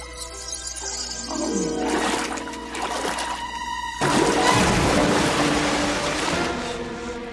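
Living seawater surges and churns with a watery, shimmering swell. Rising tonal sweeps run through it, and the sound grows fuller and louder midway before holding steady.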